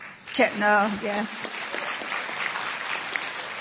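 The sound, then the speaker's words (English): An audience gives a round of applause to thank a group of committee members as they are named. A brief voice comes first, then dense, steady clapping continues to the end. “I'd be happy if you'd give them a round of applause to say thank you.”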